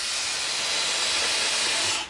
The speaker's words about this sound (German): Da koche ich jetzt diesen Fenchel kurz an.